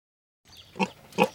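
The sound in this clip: Pig oinks from a herd of specially trained hogs: two short grunting oinks, the second slightly stronger, sounding alone after a moment of silence.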